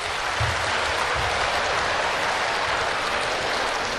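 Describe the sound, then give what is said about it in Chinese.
Audience applause at a stage show: dense, continuous clapping that stays loud and steady throughout, with no talk. “您这个掌声太少了，掌声，掌声，掌声”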